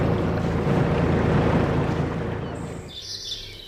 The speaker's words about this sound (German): Und so klingt es, wenn ein Kutter den großen Hafen verlässt.